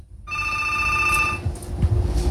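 A WhatsApp call rings with a bright, steady electronic ringtone of layered pure tones. It sounds for about a second, then cuts off and gives way to low rustling and handling noise.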